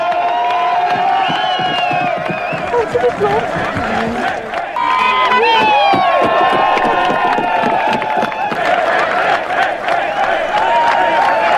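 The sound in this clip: Jubilant crowd celebrating the fall of the Berlin Wall in November 1989: loud cheering and excited shouting from many voices, with individual calls and whoops rising above a continuous roar of the crowd.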